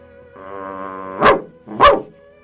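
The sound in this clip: A child on all fours imitates a barking dog: a sustained low growling voice leads into two sharp, loud barks.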